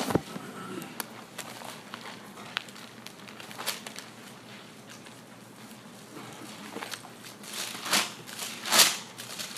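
Bible pages flipped to Galatians 5 make a faint, steady papery rustle, with many brief crinkling flicks and a few louder page turns near the end; no one speaks.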